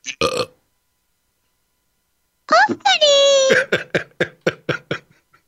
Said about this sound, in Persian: دیدین چه آروغی زدم اینجوری.